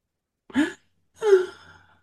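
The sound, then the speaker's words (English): A deep breath is heard alone: a brief intake, a pause, then a longer, softer sighing exhale that trails away quietly. “Now, it is time to take a deep breath.”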